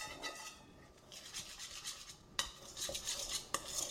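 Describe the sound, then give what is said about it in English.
An egg is stirred into thick Congo bar batter, making faint repeated scraping and rubbing strokes with two sharper knocks of the utensil against the dish. “Now stir that all in. Stir it in really well.”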